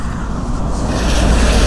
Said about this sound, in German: es kommt sogar ein Bus hier. Ein Schulbus oder sowas.